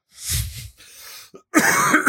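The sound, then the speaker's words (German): Coughing in a few rough, breathy bursts: a harsh first cough, a weaker raspy stretch, then a louder, sharper cough at the end, with no talking. “Kannst du bitte aufhören zu husten hier im Podcast?”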